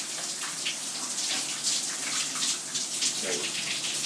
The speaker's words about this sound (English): Sound of man entering the shower.